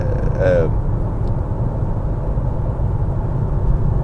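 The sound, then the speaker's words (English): Road traffic noise forms a steady low rumble for the whole stretch, with a brief higher tonal sound near the start. “Traffic is now a bit of a problem.”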